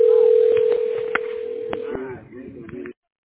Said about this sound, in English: Okay, we're dialing the tax specialist right now. Thank you for your patience.